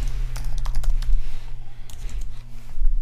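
Rapid typing on a computer keyboard, a quick, irregular stream of light key clicks with brief pauses, over a steady low electrical hum.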